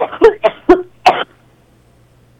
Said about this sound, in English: I'm so sorry, I have a cough.